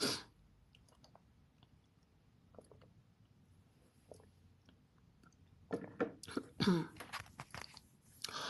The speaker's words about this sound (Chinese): 不好意思，我喝个水哈。